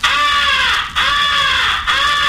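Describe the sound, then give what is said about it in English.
Three long, harsh caws blown on a hand-held crow call imitating a crow in distress, a come-here call to attract distant crows. The cries are loud and almost continuous, separated by brief breaks, and the last one is cut off. “First is the come here call, which is used to attract the attention of distant crows. It is a call of a crow in distress.”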